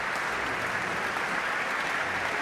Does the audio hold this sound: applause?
yes